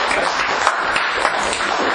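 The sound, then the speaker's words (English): Applause from attendees at a fire department meeting, a dense, steady wash of many hands clapping that holds at an even level for about two seconds with no voices on top. “So that's a round of applause.”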